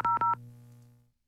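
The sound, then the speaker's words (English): Telephone dialing tones ring out as a few short, loud touch-tone beeps in quick succession. A lower steady hum follows and fades out over about a second. “Let's give her a call here this morning.”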